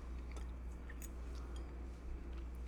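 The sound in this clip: Faint chewing of spiced Gardein meatless meatballs, soft moist bites and small crunchy clicks scattered over a steady low hum, with no talking.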